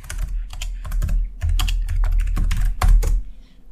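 Rapid typing on a computer keyboard while a search is entered into Google: many quick, uneven keystroke clicks in a steady run, fairly loud and with no voices.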